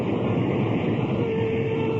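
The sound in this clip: A train at a railroad station gives a dense, continuous rumble and rushing noise with a faint thin tone coming in during the second half, and no talking.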